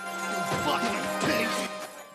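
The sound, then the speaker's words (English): Mirrors, bottles and lights smash inside a nightclub during a police raid, with batons breaking glass. A few sharp crashes hit in quick succession over a dense, continuous background. “The cops smash mirrors, bottles and lights and collect up the money in a box.”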